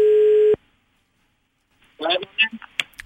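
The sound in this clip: Telephone ringing tone heard while a hotel director calls his boss: one steady buzzing tone that cuts off abruptly, then, after a short silence, people talk.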